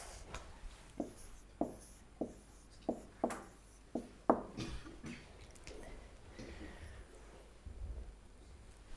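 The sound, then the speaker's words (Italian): A word written by hand with a pen: a series of sharp taps and short scratching strokes at an uneven pace, then softer, quieter scraping, with no talk. “Allora, scrivo usia.”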